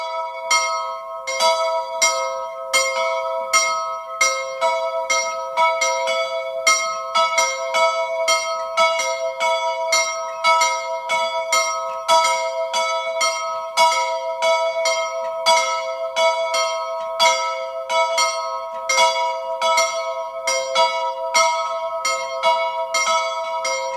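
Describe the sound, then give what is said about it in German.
A single church bell of a 17th-century branch church in Obermieming, Tyrol, ringing at noon: many steady, evenly spaced strokes with a bright, ringing hum, heard alone and unbroken throughout. “Es ist 12 Uhr. Sie hören die Glocke der Filialkirche zum Heiligen Georg in Obermirming in Tirol.”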